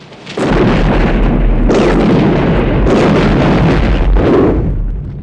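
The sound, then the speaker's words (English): A pickup truck exploding after crashing into a boulder and rolling: a heavy, rumbling roar that sets in abruptly and stays loud, swelling in a few surges before tailing off slightly. “The pickup explodes.”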